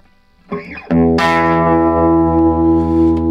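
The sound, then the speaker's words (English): An electric guitar plays straight through Gibson 335 humbucker pickups, slightly out of tune. A short note comes first, then a full chord rings out loud and sustained for over two seconds. “And that is straight in Gibson 335 humbuckers. Yeah. Kinda in tune, right? Kinda.”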